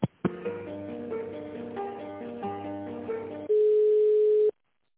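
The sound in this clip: Telephone line tone while an office call is being transferred: two clicks, then a simple electronic melody of steady notes, followed by one loud continuous tone for about a second that cuts off abruptly into silence.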